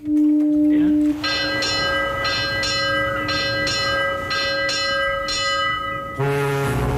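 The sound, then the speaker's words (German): Ship's bell ringing as a ship leaves port during a harbour sailing event, struck in a steady series of paired strokes that leave a bright, sustained ringing tone over a low background rumble. “Wie oft hat da die Schiffsglocke geläutet?”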